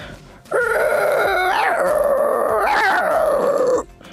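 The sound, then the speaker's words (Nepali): A voice imitates a dog, giving one long, sustained howl-like cry that wavers and dips in pitch midway before cutting off, loud and alone. “Obviously next यो डग है”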